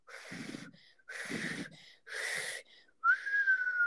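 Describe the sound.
Human whistling by someone who has just learned to whistle: three breathy puffs of air, then a clear, steady, fairly high whistled tone held to the end. No one speaks.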